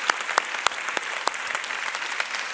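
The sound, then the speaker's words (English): Audience applause honoring those who gave their lives for the country, a Memorial Day tribute at a gathering: many steady overlapping claps, even in loudness throughout. “We want to say happy Memorial Day and thank you for all the people who gave their lives for our country. Can we give them a big hand?”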